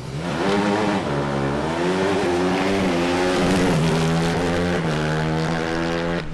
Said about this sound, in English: When it's time to hit the gas in these open-wheeled, Indy-style hybrids, some of them sound like this.